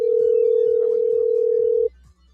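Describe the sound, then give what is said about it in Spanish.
A ringback tone on an outgoing telephone call, heard as one loud, steady, mid-pitched tone that holds for almost two seconds and then cuts off, leaving a faint low hum. “Vamos a ver si Denny nos contesta.”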